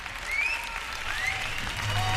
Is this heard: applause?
yes